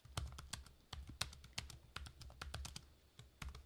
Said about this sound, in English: That's the sound of a Google search.